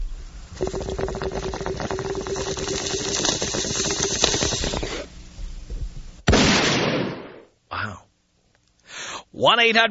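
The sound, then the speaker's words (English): Bong hit and shotgun blast sound effects: several seconds of hissing, bubbling gurgle, then one loud, abrupt gunshot burst that decays quickly, followed by a few short bursts and then a voice speaking. “Take me out with a bong hit and a shotgun blast.”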